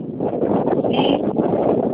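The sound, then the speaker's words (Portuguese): Wind buffets a phone microphone during a call, a steady rumbling, rustling noise with no pauses. “É que tá soprando, tem algum vento aí onde você tá.”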